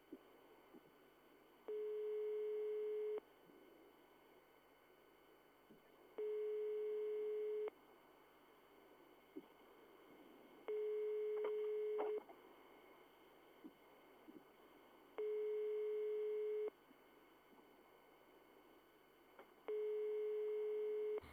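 A telephone ringing tone goes unanswered. It is a quiet buzzing tone that sounds five times at an even, slow rhythm, each ring about a second and a half long with longer gaps between.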